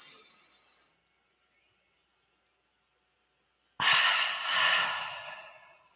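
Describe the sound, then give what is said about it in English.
A big, deep inhale: a short breathy sound, a pause of about three seconds, then a long, loud, airy rush of breath that swells again near its end. “let's everybody take a big inhale.”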